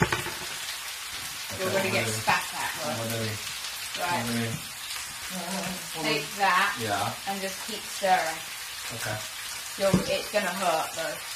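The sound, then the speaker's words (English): Milk heats in a pan while being stirred, giving a soft, steady sizzle with light scraping throughout. People talk over it. “Whilst this milk is heating, you need to keep stirring it.”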